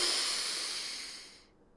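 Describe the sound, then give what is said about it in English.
A big, deep breath is drawn in with the shoulders pulled up during a guided relaxation exercise, a steady airy hiss that slowly fades out. “I want you to go ahead and take a really big, deep breath and like take your shoulders up to your ears, everything. Take it up, big, pull it in.”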